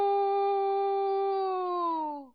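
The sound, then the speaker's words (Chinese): A human voice imitating a rooster crowing while pinching the nose. It is one sustained, nasal, strongly tonal call lasting about two seconds, holding a steady pitch before dipping and cutting off at the end. “门客当中又有一个惯偷出身的人在关前捏着鼻子学起了鸡叫。”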